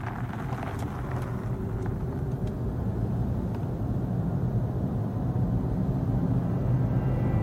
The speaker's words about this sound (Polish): Tak brzmi elektryczne, zeroemisyjne BMW i3.